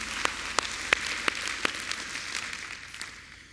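An audience applauds the band with a steady wash of clapping. A few sharp individual claps stand out early on, and the clapping gradually fades toward the end.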